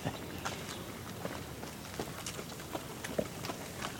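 Faint footsteps of someone walking around, clunking softly in an irregular rhythm, with many small knocks just above a steady background hiss.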